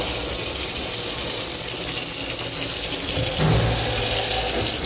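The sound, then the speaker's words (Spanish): Two water taps running full on a building site, newly installed and opened to fill a sink during a plumbing leak check; a loud, continuous rushing and splashing of water with a slight shift in tone near the end. “Abrimos también grifos, abrimos los dos grifos para comprobar que funcionan perfectamente. Dejamos llenar un poco”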